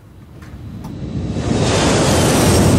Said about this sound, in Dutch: dat is het geluid van overvliegende vliegtuigen in de noordrand van Brussel en in Brussel zelf